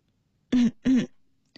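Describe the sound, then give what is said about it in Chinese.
Light throat clearing with a soft cough: two short, low, rasping bursts in quick succession, followed by a faint brief click. “李克却轻咳了一声”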